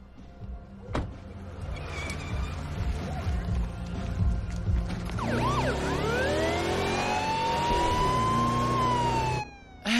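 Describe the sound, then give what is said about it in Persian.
Police car siren, switched on to overtake traffic: steady road and engine noise gives way midway to a loud wailing siren sweeping up and down in pitch, which cuts off just before the end. “من البته من عاشق اینم که آژیرم رو روشن کنم و از همه ماشینا جلو بزنم”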